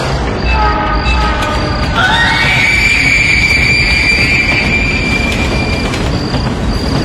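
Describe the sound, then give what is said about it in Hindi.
A train passes on the tracks with a loud, continuous rumble. A sharp, high wheel squeal sets in partway through and holds steady for several seconds before fading. “मेरी आंखों के सामने उसके ऊपर से उसे कुचलते हुए train गुजरती जा रही थी उस गुजरती ट्रेन की आवाज के साथ साथ”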